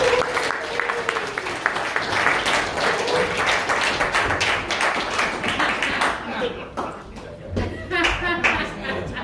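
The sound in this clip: Audience applause welcoming a speaker to the stage: dense, steady clapping from a crowd fills the whole stretch, with voices mixed into the sound.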